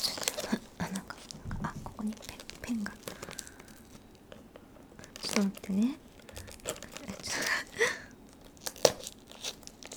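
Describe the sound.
A package being torn open: several short bursts of crinkly tearing and crumpling of packaging, soft overall, with quieter gaps between the bursts.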